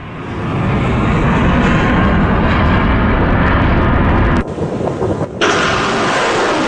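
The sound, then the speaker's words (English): Missiles fired in the port city of Mocha, Yemen, make a loud, sustained rumbling roar with wind buffeting. The roar dips briefly near the end, then swells back to full strength. “The sounds of missiles being fired in the port city of Mocha, where the Iranian-backed Houthis have just taken control.”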